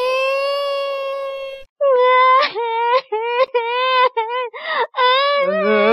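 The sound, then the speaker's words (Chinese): A voice acting out crying in a children's storytelling reading of Charlotte's Web. Drawn-out tonal whimpers and wails break into choppy, uneven sobbing bursts, loud and emotional. “裁缝弟弟啊，你干嘛哭啊？网破的是蜘蛛小弟，你哭什么啊？”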